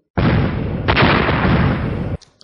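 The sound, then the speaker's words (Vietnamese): Roaring explosions as a blood-red flying sword slashes into a net of electric arcs, lightning and blood energy colliding. A loud, sustained blast rumbles for about two seconds, surges midway, then cuts off, followed by a couple of faint pops. “Một loạt tiếng nổ vang lên, điện quang và huyết khí liền đang xen vào nhau.”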